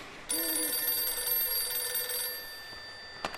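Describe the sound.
A telephone rings with a steady electronic trill that lasts about two seconds and then stops, leaving a fairly faint, quiet background. No one speaks.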